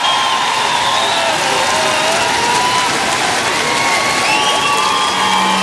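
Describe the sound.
Loud applause and cheering from a concert crowd in Lille for a band: a continuous, dense roar of clapping mixed with high shouts and whoops throughout.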